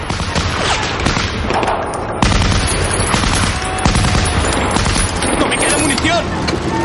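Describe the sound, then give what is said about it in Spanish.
Gunfire from German soldiers firing out of a bell tower in a Saving Private Ryan battle scene, loud, dense bursts of rapid shots and booms that run continuously throughout. “Los alemanes rematan a los heridos. Todos se ponen a cubierto. Los del campanario disparan.”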